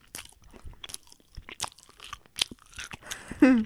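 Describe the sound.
Biting and chewing into a donut with purple, pink, white and blue frosting on top and purple between its layers, giving a series of soft crunchy bites and chews, with a brief voice at the very end.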